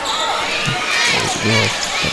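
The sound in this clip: A basketball bounces on the court during a game, with a few dull thumps over steady crowd noise and a man talking.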